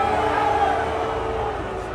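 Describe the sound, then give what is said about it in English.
A wrestling arena crowd boos The Rock, a sustained, low droning mass of voices that holds steady and loud, then eases slightly toward the end. “Is that why you're booing? You're booing because The Rock was a little late. Is that why you were booing?”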